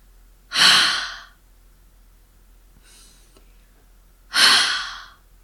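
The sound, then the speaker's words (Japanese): Two forceful, breathy exhales blown onto the palm of a hand, each a loud, hissing burst about a second long, with a much fainter breath between them. “そして冬の寒い日に手のひらにあったかい息をかけると思って思いっきり息を吐いてみましょう。こんな感じです。”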